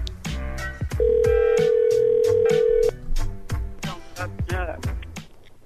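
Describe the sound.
A telephone ringback tone on an outgoing call: a single steady electronic tone lasting about two seconds, heard over rhythmic background music with regular beats.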